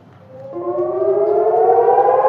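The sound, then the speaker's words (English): A civil defense siren warning of a rocket attack in Eilat, southern Israel, rises in pitch over the first half second and then holds a loud, steady wailing tone with layered harmonics, sounding alone. “When sirens warn of a rocket attack, residents of Eilat in southern Israel have about 30 seconds to get a shelter.”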